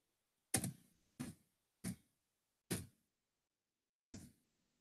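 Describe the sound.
Five sharp, separate taps as someone types a search for hats on a device after returning to its home screen, each tap with a short decay and irregular gaps between them.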